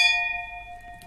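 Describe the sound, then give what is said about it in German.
Wine glasses of Riesling clinking in a toast, leaving a clear, bright ringing tone that slowly decays, faint and alone. “Und ja, lass uns doch mal anstoßen ja.”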